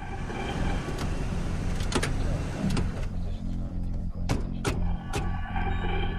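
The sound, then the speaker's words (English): A tactical vehicle pulls up outside a complex gate: a steady low engine rumble throughout, broken by a few sharp mechanical clicks. “Jack, Tony, and Castle arrive outside the complex gate in the lead tactical vehicle”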